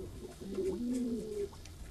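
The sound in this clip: A pet bird coos softly, giving one short, low, warbling call of about a second, faint and alone against quiet background hiss.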